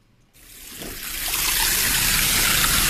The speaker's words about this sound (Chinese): 在密云区西翁庄镇黑山寺村口前，清澈的小溪正缓缓流淌着